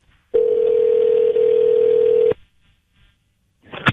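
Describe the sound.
A telephone dial tone heard while placing a call: one steady, loud, mid-pitched hum lasting about two seconds that cuts off abruptly, followed by quiet and then a brief burst of clicking noise on the line.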